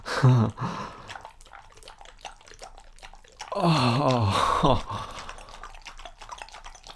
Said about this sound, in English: I have no idea what that's gonna sound like on the microphone, but. From here, it sounds wet and it sounds messy.